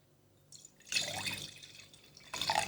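Wine is poured into a glass with faint trickling and splashing liquid that swells in the middle and again at the end. The sound is soft and quiet, with no voices.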